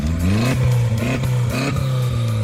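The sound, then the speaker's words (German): Engine revving from a pink Audi A3 race car at a stubble-field race in Uckermark, a loud, continuous rough drone with repeated surges in pitch as the throttle is blipped. “dieses Geräusch, das gehört zu dem Audi A3”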